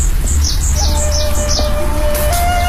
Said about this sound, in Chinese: 小鸟叫，真的。